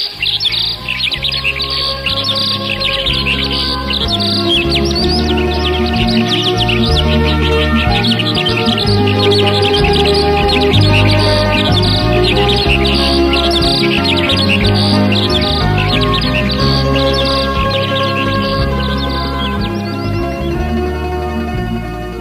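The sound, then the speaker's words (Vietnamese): Birdsong rings out around a house at the forest's edge before sunrise, with many overlapping chirps and trills that continue loudly and without pause. “Sáng sáng mà trời chưa kịp mọc, Bê vàng đã nghe rộn rã tiếng hót ở quanh nhà ở ven rừng, ở bên kia bờ suối, ở tít trên núi cao.”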